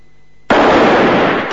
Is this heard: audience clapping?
no